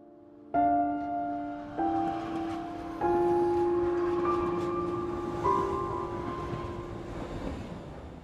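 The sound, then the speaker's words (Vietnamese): A train pulling into a station: sustained tonal whines enter in several steps over a steady rumbling bed, staying fairly loud throughout. “Cuối cùng cũng về tới ga. Trên tàu mọi người nhốn nháo kiểm tra hành lý để đi xuống.”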